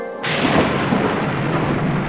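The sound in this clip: Thunderstorm at the onset of a hurricane at sea: a loud, broad rumble breaks in after a brief quieter opening and roars on steadily to the end, with a dense hiss running underneath.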